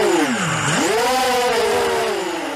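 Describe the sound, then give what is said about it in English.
Racing drones whine past at an International Drone Day race in Bolton Valley in 2016. A loud, buzzing motor tone dives sharply in pitch, then climbs back and holds steady and bright to the end. “That's the sound of drones racing in Bolton Valley back in 2016 during International Drone Day.”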